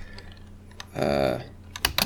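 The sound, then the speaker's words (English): Typing on a computer keyboard, a few sparse, faint key clicks early on, followed by a quick cluster of sharper keystrokes toward the end, heard without speech. “Let me type this up.”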